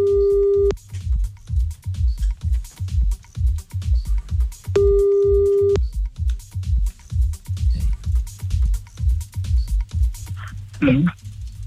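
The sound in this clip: Ringing tone of an outgoing telephone call during a prank call: two steady ring tones about five seconds apart, heard over a pulsing, rhythmic low background.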